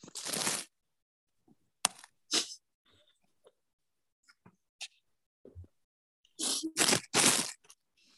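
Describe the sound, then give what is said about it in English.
A can of soup being opened gives sharp cracks and rasping scrapes in scattered bursts. Louder bursts come at the start and near the end, with faint clicks and ticks between them. “I'm very suddenly trying to open soup over here. I don't know if you can hear it, but it's happening.”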